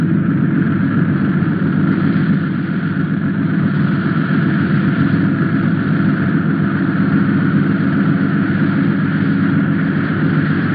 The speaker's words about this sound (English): Passing over the mountains, the plane drops its landing gear as it approaches Bombay. It descends toward the runway.